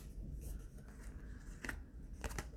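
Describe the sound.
Tarot cards are drawn from the deck during a card reading, giving a few soft, crisp papery snaps and slides spaced irregularly, with the last two close together and no talking.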